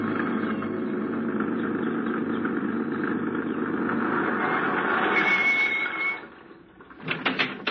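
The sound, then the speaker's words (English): A truck engine drones steadily in a radio drama as the truck drives down a hot, dusty street at a mine. The low, rumbling hum holds for about six seconds, then drops away, followed by a few light clattering knocks. “remembering what Carton had said, he swung the truck wide around the native village. And a few minutes later, he was driving down the hot, dusty street that separated the four frame buildings of the Tabora mine.”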